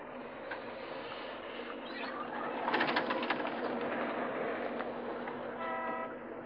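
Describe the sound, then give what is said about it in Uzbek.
A tram arrives, heard as a faint, continuous rolling rumble with metallic rail noise that swells in the middle, followed by a brief tonal horn-like note near the end. “Ana tramvoyimiz keldi.”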